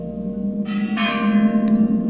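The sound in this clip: Resonant bell strokes from an old clock striking midnight on a cold, windy winter night. A few deep, ringing chimes sound over a steady low background rumble.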